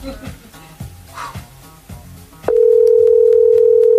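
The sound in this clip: A telephone tone while waiting for someone to pick up: a loud, steady single-pitched tone starts abruptly after a stretch of talk and holds level to the end.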